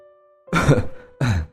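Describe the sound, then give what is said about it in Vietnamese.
An older woman coughs as she gets out of bed: a longer harsh, rasping burst, then a shorter one, loud and with no other voice, over a faint steady hum. “Bà Liên từ trên giường bước xuống, miệng liên tục ho lên không ngớt”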